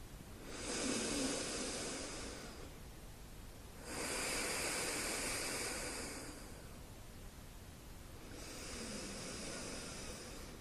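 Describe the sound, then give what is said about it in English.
Three slow, deep breaths drawn during a calm bedtime relaxation, each one a long, soft, breathy hiss separated by quiet pauses. “Let's take 3 deep breaths together.”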